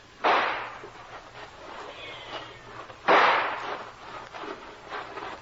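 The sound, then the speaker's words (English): Two sharp gunshots fired as a signal to charge, each a loud crack with a decaying tail, spaced a few seconds apart with nothing else prominent between them. “You signal a charge. Two fast shots and we all go.”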